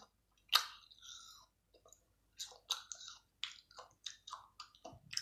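Crisp bite into an apple followed by many crunchy, moist chewing sounds in an irregular rhythm, with short pauses between the chews and no talk.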